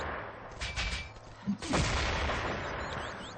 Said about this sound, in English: I'll probably get 3 or 4 grenades go off here. Oh, there's another one.